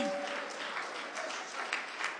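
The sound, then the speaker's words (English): Soft applause from a church audience during a sermon. The clapping is faint and blurs into an even wash, with a brief low tone near the start. “Can we just clap our hands and thank God for the wisdom of the church?”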